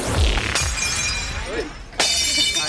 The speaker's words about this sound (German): Gestern Abend wurde beim gemeinsamen schwul-lesbischen Polterabend in Berlin noch kräftig Porzellan zerschlagen.